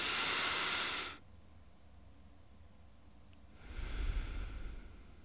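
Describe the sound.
A deep breath drawn in through the nose, then held in near silence, then slowly let out; a relaxation breathing exercise, with a soft airy inhale, a quiet pause and a fuller, lower exhale, all without talk.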